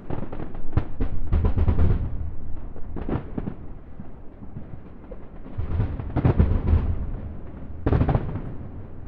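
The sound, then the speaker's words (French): Fireworks set off on 20 August in Budapest: loud booming bursts, several close together near the start and more later, each with a crackling tail over a continuous low rumble. “Le feu d'artifice que nous écoutons, tiré un 20 août à Budapest”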